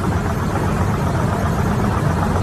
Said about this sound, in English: listen to that vibrating. It sounds like a washing machine that's out of balance during a spin cycle. That is inside the plane.